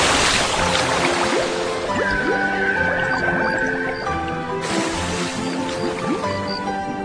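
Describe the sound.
Seawater washes and bubbles as divers go underwater in the sea, a steady, dense churning noise with scattered bubbly pops and no talk.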